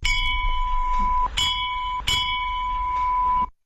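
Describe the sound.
A temple bell is rung loudly during a puja, three hard strikes on one bright, sustained ringing tone that carries between hits and then stops abruptly.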